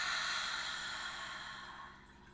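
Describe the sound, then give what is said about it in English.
A deep breath drawn in through the nose and released during a guided relaxation exercise: one long, airy rush of breath that fades gradually over about two seconds, with no talk. “And let's take a nice deep breath in through your nose. And release.”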